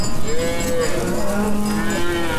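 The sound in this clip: Cattle mooing on a grassland near herders: low, drawn-out moos that overlap and hold a steady tone, loud and clear above a soft outdoor background.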